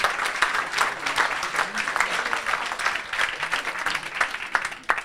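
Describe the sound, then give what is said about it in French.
Audience applause welcoming a guest at a lecture on astronomy, dense steady clapping for about five seconds at a moderate level. “Je crois qu'on peut l'applaudir à nouveau pour lui souhaiter la bienvenue”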